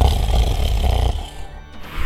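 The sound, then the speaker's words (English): Loud snoring from a man asleep, where wine bottles are being kicked away from his feet: a harsh, guttural rasp with a roaring, grunting texture that eases into a quieter, breathy tail. “A slumbering man who they are sort of kicking wine bottles away from around his feet, and you hear loud snores coming from”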